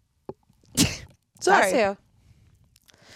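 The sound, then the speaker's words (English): A person sneezing: a sharp, breathy burst followed by a louder voiced, tonal sound, separated by brief quiet gaps. “I like it even more with the sneezes. They're cute.”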